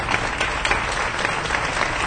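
Dense, steady applause from an audience after an emotional reading of a manifesto, many hands clapping continuously and evenly throughout, with no voices rising above it.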